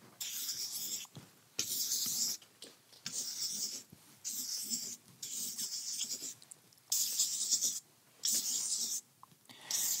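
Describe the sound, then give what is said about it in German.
A pen or marker scratches across a surface as someone draws a diagram by hand. Short bursts of rough, hissy scraping come one after another in a loose rhythm, separated by brief pauses, with no talking. “Und jetzt zeichne ich das mal einfach so auf, wie sich das so in etwa darstellt.”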